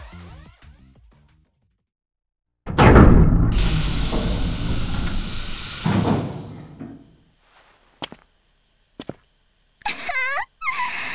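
A cockpit hatch opens with a loud, broad rushing hiss that lasts several seconds and then dies away, followed by a few short, sharp clicks and knocks and some brief tonal chirps.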